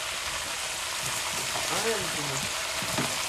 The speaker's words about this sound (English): Let's just shake around the pan and just keep stirring because this is a very, very hot stove, which means we don't want to leave anything on there for too long